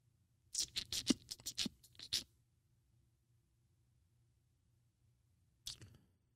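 Someone types a search term on a computer keyboard: a quick burst of many light key clicks, then several seconds of silence before one more brief keystroke.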